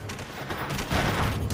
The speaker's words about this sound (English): As the soldiers and militia continue to fire, night vision shows more men racing down the street towards the embassy.